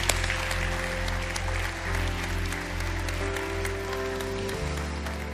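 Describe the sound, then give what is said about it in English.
A church audience applauds to welcome new believers: steady, dense clapping lasts the whole clip over sustained low musical tones that hold underneath. “Bridge family, can we put our hands together and welcome people to God's family today?”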